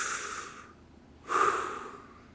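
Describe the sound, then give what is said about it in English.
A deep breath taken as two breathy, airy swells, the second stronger and longer with a slight nasal snort to it. Both are soft and heard alone. “Take a deep breath with me. Big deep breath.”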